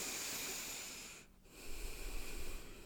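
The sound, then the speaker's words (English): A deep breath drawn in and let out: a faint, airy hiss broken by a brief pause midway, then a second, breathier rush, with no talk. “take a big deep breath in and out with me so we can get in that right headspace”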